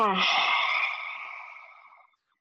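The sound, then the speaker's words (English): A lion's breath yoga exhale with the tongue out: one long, forceful, breathy rush of air that opens with a brief voiced edge and fades to silence over about two seconds. “I'm going to invite you to bring in some lion's breath, such as sticking the tongue out. Again, just an invitation. Inhale. Exhale.”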